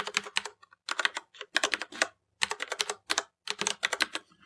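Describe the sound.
Rapid clicking of a computer keyboard as a folder name is typed into a Windows system folder, with quick clattering keystrokes arriving in short bursts separated by brief pauses.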